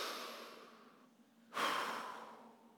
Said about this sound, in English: 1, 2, 3, let's breathe.